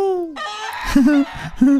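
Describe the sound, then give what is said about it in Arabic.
Rooster crowing and clucking: two short bursts of wavering, strained calls follow a brief falling vocal sound, loud and close together. “الديك يصيح متى يشاء، صبح مساء. كوكوكوكو.”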